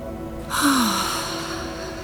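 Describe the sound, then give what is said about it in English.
A deep breath in, taken during a group breathing exercise: a sudden airy rush that begins after a quiet half-second and holds steadily to the end, with a brief low falling tone near its start. “So take a nice deep breath, everybody.”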